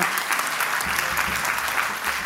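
An audience applauds a lay preacher's converts at a Christian gathering. The clapping is dense and continuous and stays loud and even for the whole clip.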